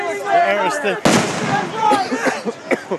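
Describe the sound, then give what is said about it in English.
A single abrupt, loud bang of rubber bullets or smoke grenades being fired at a street protest cuts through raised, shouting voices, which carry on around it. “They are firing rubber bullets and smoke grenades.”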